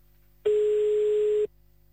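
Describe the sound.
A single steady ringing tone sounds on an outgoing telephone call placed to Namur: a plain mid-pitched hum lasting about a second, alone on the line, before the line falls quiet.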